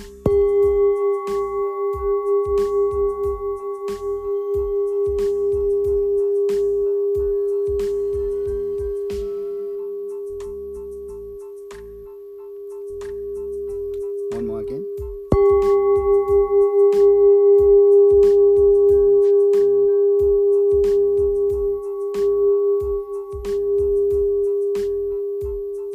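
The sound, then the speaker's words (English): A small hand-held 15 cm full moon singing bowl tuned to G is struck twice with a mallet. Each strike rings out as a pure, sustained tone with soft overtones that slowly fades, with faint taps underneath. “There you go, that is the sound of this G note singing bowl.”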